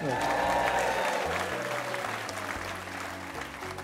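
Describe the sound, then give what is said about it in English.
A studio audience at Pensacola's Museum of Commerce applauds, a loud, full burst of clapping that holds steady and then eases slightly toward the end. “Give yourselves a big hand.”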